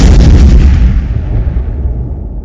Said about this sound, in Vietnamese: một tiếng nổ kinh hồn